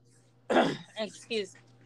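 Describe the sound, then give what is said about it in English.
Coughing and choking from someone in the middle of a park, with one harsh, loud burst followed by two shorter, voiced sputters over a low steady hum. “Toma agua, güey, la verga, te vas a ahogar aquí en medio del pinche parque.”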